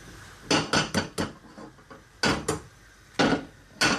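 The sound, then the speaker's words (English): Two eggs being cracked into a hot pan: several sharp, woody knocks and clicks come in short clusters separated by quiet gaps, with no sizzling clearly standing out. “So I've got two eggs here. I'm going to crack them into my pan.”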